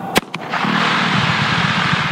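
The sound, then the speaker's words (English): A dynamite blast breaks up rock in the way of a 6.5-mile pipeline: a sharp, loud boom, then a second quick crack, giving way to a sustained, broad roar and rumble that continues to the end. “To install one 6.5-mile pipeline, workmen set off a dynamite blast last week, breaking up rock that was in the way.”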